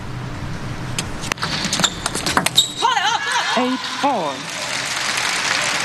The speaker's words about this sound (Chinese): 王曼玉接发球，反手拧拉，一板得分。